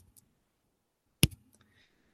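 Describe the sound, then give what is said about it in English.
A single sharp little click from the metatarsals of a foot being squeezed together, demonstrating the pop of a Morton's neuroma. It is brief and crisp, with faint soft handling noises before and after. “And people with Morton's neuroma, sometimes you'll feel or hear a little click. It'll be kind of like this here. I don't know if you can hear this.”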